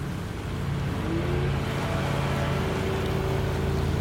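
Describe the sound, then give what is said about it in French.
A Zodiac inflatable boat's motor drones as the craft heads out toward a fin whale, a steady, loud, unbroken hum that holds level throughout with no voices. “Là, ils partent avec euh, le Zodiac euh, direction le Rorcal commun, qui replonge quand même très régulièrement”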